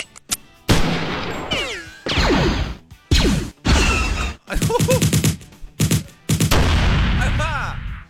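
Gunfire sound effects from many weapons firing at once make a loud, dense barrage of repeated blasts and bursts, separated by brief gaps.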